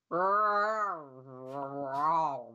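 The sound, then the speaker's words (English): A human voice imitates an alien creature's roar, meant to sound like several dogs and a couple of cats at once: one long, low, growling howl that dips in the middle and swells again. “It is the sound of 6 or 7 dogs and a couple of cats.”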